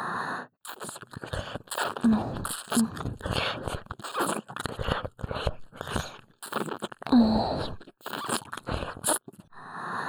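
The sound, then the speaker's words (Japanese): Wet licking of an ear: many close, smacking and slurping bursts in an uneven rhythm, with brief breathy voiced murmurs in between. “私が舐めているから、こんなにも高まっているのだな。”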